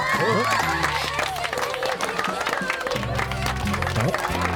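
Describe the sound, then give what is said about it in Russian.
A crowd applauding: dense, continuous clapping and crowd noise run throughout, mixed with tonal sounds. “Почему они нам аплодируют?”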